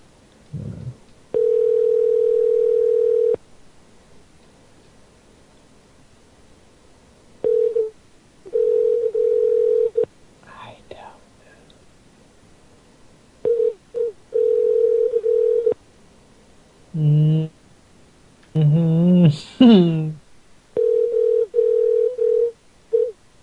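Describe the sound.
A telephone rings with a plain mid-pitched electronic tone in bursts of uneven length, one long burst first and then shorter ones, with brief voices in the gaps.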